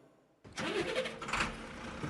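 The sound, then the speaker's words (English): A truck engine starting: a short quiet lead-in, then the engine cranks and catches, settling into a steady, loud, rumbling idle that continues to the end. “That is, until I was sat in the truck, ready to go.”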